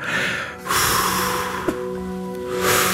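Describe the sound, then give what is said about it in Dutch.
Deep breathing in and out, with a few long, airy breaths separated by short pauses. Soft sustained tones sit quietly underneath, and no speech is heard. “Adem in, adem uit.”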